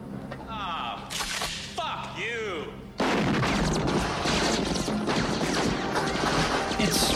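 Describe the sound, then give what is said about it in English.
Gunfire from a film action scene: after about three seconds of quieter chirping, whistling sounds, a loud burst of rapid, continuous shooting starts abruptly and keeps up as a dense crackling barrage to the end. “They're shooting at RoboCop.”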